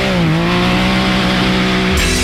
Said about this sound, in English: Hit the trails in the ultimate off-road vehicle. Can-Am is built for ripping through trails, crawling through mud, cruising over dunes